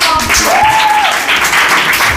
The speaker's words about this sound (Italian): Fantastica questa storia, applauso!